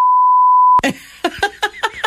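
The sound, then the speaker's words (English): A censor bleep: one steady, high, pure tone held loud and alone for under a second, then cut off sharply. A rapid run of short vocal bursts follows. “Would you have had to be beeped a lot?”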